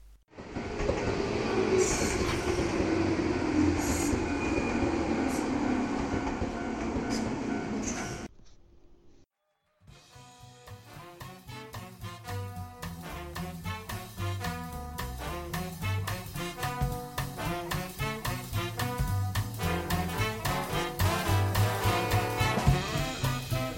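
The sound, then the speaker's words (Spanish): A subway train running: a loud, steady rumbling roar for several seconds that drops away briefly, then returns as a rhythmic clickety-clack of wheels over rail joints that goes on to the end. “Próxima parada, estación Nardo.”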